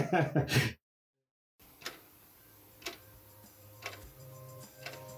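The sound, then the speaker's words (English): A clock ticks in sharp, soft clicks at an even pace of about one per second, four ticks in all, after a brief voice at the start and a moment of silence. “Tick tock, tick tock. That's the sound of the clock.”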